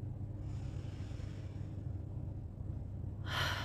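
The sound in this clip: A slow, deep inhale during a guided relaxation session, soft and airy over a steady low hum, ending in a louder breathy rush.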